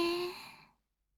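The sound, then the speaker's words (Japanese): A single long exhale during a guided deep-breathing exercise, a soft breathy rush that is loudest at the start and fades to silence in under a second. “吐いて、深呼吸をしながら一緒に頭の中で数を数えましょう。”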